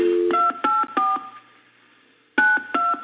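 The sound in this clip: Touch-tone telephone keypad beeps as a number is dialed: a short run of crisp, evenly spaced tones, a pause, then a few more, with no talk.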